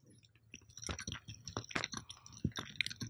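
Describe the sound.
Close-up ASMR-style chewing of food: many quiet, irregular wet crunches, squishes and clicks of biting and mastication, heard alone with no talking.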